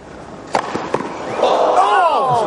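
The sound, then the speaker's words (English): A ball striking a man's head in a played video makes a couple of sharp, hard thuds early on, then voices talk over a steady background. “He got hit in the Woody Harrelson. Can I watch these again? I want to hear. Just listen for the first shot. Which was that? The ball or his head or both that made that sound?”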